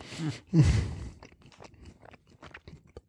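Crunching on Polish snacks: one loud bite followed by many fainter, irregular crunches and chewing sounds, with no talk over them.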